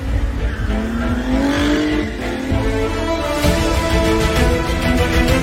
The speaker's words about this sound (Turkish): Sivas Belediye Başkanı Adem Uzun, drift alanı açılışını yaptı, Ferrari ile drift gösterisi yaptı ve herkesi şaşırttı.